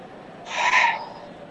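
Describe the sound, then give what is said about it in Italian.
A referee's whistle sounds at a football match: one short, shrill blast over steady crowd noise. “Altro fischio da parte del direttore di gara.”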